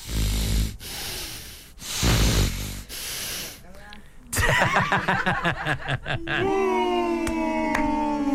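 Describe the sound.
A voice imitates heavy, snoring-like breathing with a few loud, rasping breath bursts, followed by other tonal sounds.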